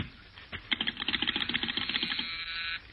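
Telephone being dialed: a rapid, steady run of many sharp little clicks lasting about two seconds, alone with no talk.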